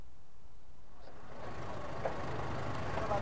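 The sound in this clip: A bus engine rumbles faintly as passengers board and hand their luggage to the driver. The low drone picks up about a second in and then holds steady.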